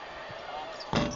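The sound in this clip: A basketball free throw strikes the back rim in a BYU college game, a single sharp clank that rings briefly under people talking and a steady background wash.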